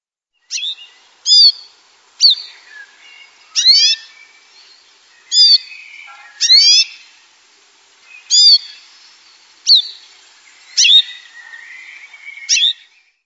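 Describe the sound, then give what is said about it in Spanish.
Wild canary song: a series of short, high, bright chirping phrases, each a quick burst of rapid warbling notes separated by brief pauses, fairly loud and with no voices. “como podemos ver, el canario silvestre no se parece mucho al canto del canario doméstico”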